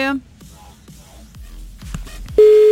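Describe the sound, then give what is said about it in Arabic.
A telephone line tone sounds while a call is placed: faint clicks and chirps give way to a single steady, mid-pitched tone that starts near the end and holds loudly. “انا ما عم بتصل بالرابح، انا عم بتصل هيك بس لحتى نستمتع مع بعض. يلا عم نتصل ب”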